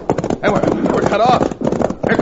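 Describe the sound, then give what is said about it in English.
Horses galloping away in a Western chase scene, a rapid clip-clop of hooves running under loud shouting voices. “Turn those horses, boys, and let's get out of here!”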